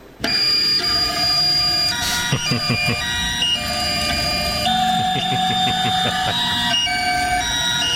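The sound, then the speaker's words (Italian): The stepper motors of a 3D printer play a melody as buzzy, electronic-sounding tones: loud, steady, sustained and repeated notes in a march-like rhythm that runs through the whole clip. “ti faccio sentire come suona una stampante 3D, eccola qua.”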